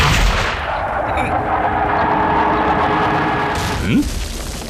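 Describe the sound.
Cannon or gunfire shelling houses below a city wall. A loud, dense, continuous roar of firing with no clear gaps runs throughout, swelling slightly near the end.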